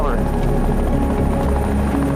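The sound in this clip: An aircraft takes off over a landscape of karst peaks, producing a loud, continuous engine drone with a heavy low rumble that stays steady and unbroken throughout.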